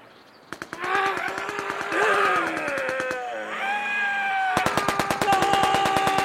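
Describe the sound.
Two bursts of rapid, sharp clicking from a nail gun fired in a duel, the rounds snapping out in a fast regular stream with a short pause between bursts, mixed with wailing, voice-like tones.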